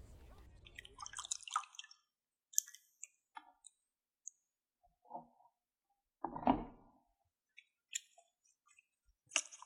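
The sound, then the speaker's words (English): Water splashing and dripping as horns are washed by hand: a short wet rush, then scattered faint drips and small clicks, and a second louder splash later on. “Aye, new government guidelines I'm afraid. I'm on hand washing duty the day. Just hold your horns out please.”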